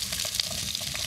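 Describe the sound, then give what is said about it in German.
Red onions frying in melted coconut fat give a steady, crackling sizzle that runs unbroken through the whole moment, with no voices. “habe ich ein bisschen Kokosfett. Ich würde das so ein bisschen auslassen. Und gebe dann schon mal so diese Hauptgeschmacksträgergemüse, wie zum Beispiel die roten Zwiebeln, ein bisschen”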